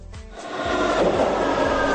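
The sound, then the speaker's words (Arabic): A metro train departing, its low mechanical rumble swelling quickly in the first half-second, then holding at a steady, fairly loud level with a sustained hum. “المترو ينطلق.”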